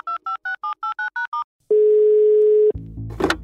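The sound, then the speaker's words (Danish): Telephone keypad tones beep in a quick, even run as a call is placed, then a steady low ringing tone holds for about a second before breaking off into a click and a brief noisy burst. “Til gengæld ved jeg, hvem vi skal ringe til for at få svar på Matteos spørgsmål.”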